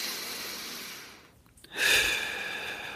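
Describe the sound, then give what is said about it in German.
A deep breath is drawn in through the nose and let out through the mouth during a guided relaxation exercise. Soft airy breath noise leads into a brief quiet pause, then a louder rush of air that gradually settles. “Jetzt nehmen wir erstmal einen tiefen Atemzug, um uns ein bisschen zu beruhigen.”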